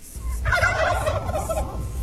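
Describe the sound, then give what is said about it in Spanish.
Turkeys gobbling in a residential neighborhood: a loud, continuous run of rapid warbling gobbles that overlap throughout, with no talk. “Era un reporte de guajolotes ahí en la colonia Los Espejos, pues no es nada común.”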